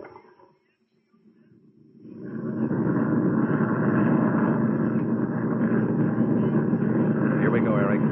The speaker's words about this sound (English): Crash crews, all emergency crews. The C-97 now landing is yours. Right gear is okay. The left is doubtful.